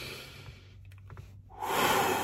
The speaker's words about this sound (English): All right, number two, take a deep breath.